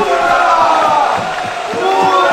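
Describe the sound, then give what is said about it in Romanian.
A large crowd cheers for the queen, who rides in a colonel's uniform during a royal parade. The dense, loud roar of many voices carries shouts and calls rising out of it, sustained throughout. “Uite, lumea aplaudă.”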